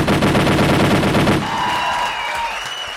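A rapid burst of gunfire sound effect: loud, dense shots fire in quick succession for about a second and a half, then give way to sustained ringing tones that slowly fade.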